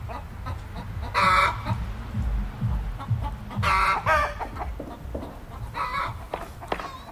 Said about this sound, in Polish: A co ja tutaj słyszę? Znaczy, no te... No, kury? Kury, no tak, bo tutaj sąsiedzi mają z jednej strony kury